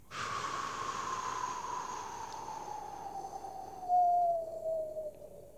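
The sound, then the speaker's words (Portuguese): A long, slow exhale from a breathing exercise of quick inhales and slow outbreaths: a steady airy hiss with a faint tone that glides gradually lower, lasting about five seconds, with no talk. “Inspirar super rápido e expirar devagarinho fazer, por exemplo, inspirar, expirar.”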